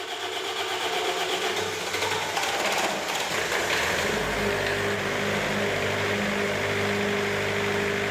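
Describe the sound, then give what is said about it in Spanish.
A diesel generator runs during a power-cut emergency drill, a loud, dense mechanical roar at steady loudness throughout, with a deep low drone settling in about halfway through. “Baixan os machetes simulando que marcha a luz. Automáticamente, ten que acenderse o xerador de gasóleo.”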